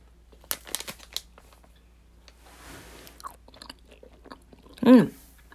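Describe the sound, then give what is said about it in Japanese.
Someone chews a cherry-coloured, cherry-flavoured gummy candy, giving soft wet clicks and small squishy crunches at an uneven pace, mostly faint, with a brief louder voiced sound near the end. “かわいいさくらんぼ色してますでは食べますねいただきます”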